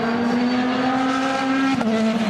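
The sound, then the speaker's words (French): A Genesis endurance race car leaves the pits with heavy wheelspin, its engine holding a loud, steady high drone rich in harmonics, broken by one brief dip in pitch near the end. “J'ai bien vu, hein, le pilote faire énormément patiner les roues en quittant les stands.”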